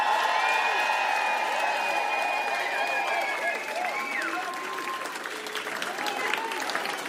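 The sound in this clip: Crowd applause and cheering at a live show, right after a DJ is introduced: dense clapping fills the whole clip at a steady, fairly loud level, with a few shouts and whoops above it.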